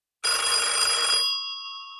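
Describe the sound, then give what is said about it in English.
A single telephone ring at home: a bright, metallic bell trill lasting about a second, then a fading tonal ring-out, heard alone against silence. “And the phone rang. So I picked it up.”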